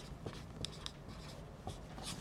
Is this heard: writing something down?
yes